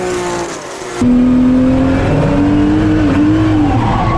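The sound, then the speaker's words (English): A historic racing car drifts through a corner while staying on the throttle. Its loud, continuous engine roar carries on throughout, with tire squeal and a steady tone rising in strength after the first second. “So I thought I could just kind of drift through it by staying on the throttle.”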